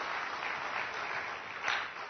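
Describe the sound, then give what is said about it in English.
Audience applause for a newly married couple: steady, dense clapping from many hands, fairly faint and continuous, with a brief swell near the end. “I wanted to give them a big round of applause.”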